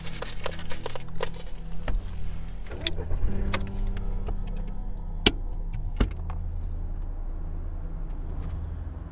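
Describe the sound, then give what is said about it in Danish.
A car drives along with a steady low engine drone and road rumble throughout. A couple of sharp clicks or knocks cut through near the end, and no one talks. “Okay, vi kører ud til Lissabon.”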